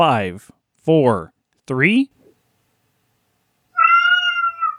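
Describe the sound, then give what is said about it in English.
A pet cat meows several times in quick succession, short, high, wavering cries separated by brief pauses, heard clearly and alone. “And if you heard the meow, that was Stitches.”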